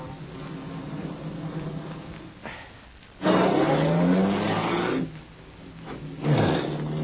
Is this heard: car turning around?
yes